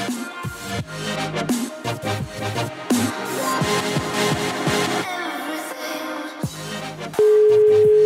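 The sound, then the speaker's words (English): A weird phone ringtone plays as a busy, tune-like run of electronic notes, then ends in a single loud, steady held tone. “Why has she got the weird ringtones?”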